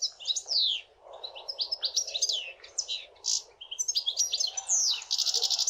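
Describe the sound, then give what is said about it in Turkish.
European goldfinch singing alone: rapid, high-pitched liquid twittering in varied chattering phrases, ending with a fast buzzy trill. “Şimdi bir sakayı dinleyelim.”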